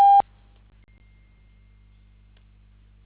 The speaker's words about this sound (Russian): Вы можете оставить ему сообщение после сигнала.